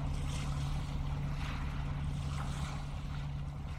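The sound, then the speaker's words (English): A boat approaching an island jetty: a steady low rumble blended with a continuous wash of water and wind noise, even in loudness throughout. “I can see the boat now as it is approaching the jetty and know that my ride is here.”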